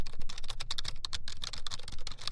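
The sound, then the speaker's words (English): A computer keyboard in a studio is typed on: many rapid, crisp key clicks in an uneven rhythm, fairly quiet, with no voices. “It's a computer keyboard, of course, happens to be one of the keyboards in our studios”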